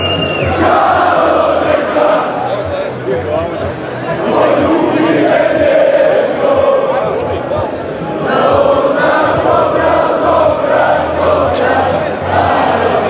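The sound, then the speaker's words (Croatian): Thousands of Croatian football fans crowd the streets of central Leipzig, shouting and chanting in a dense roar of many voices. The noise swells and eases in broad waves without a break. “To u ovim trenucima zvuči u samom centru Leipziga. Atmosfera je, malo reći, fenomenalna. Tisuće navijača vatrenih je ovdje.”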